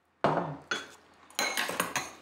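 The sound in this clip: Dishes and cutlery clink as food is served into bowls at a family dinner, with several sharp metallic taps and scrapes at uneven intervals, the later ones coming in a quicker cluster.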